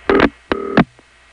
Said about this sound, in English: And at this point, the step's connector begins ringing, which in this case is very quickly tripped.